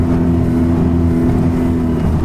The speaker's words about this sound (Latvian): Agrā rītā kopā ar vairākiem Latvijas Hidroekoloģijas institūta darbiniekiem ar laivu dodos jūrā.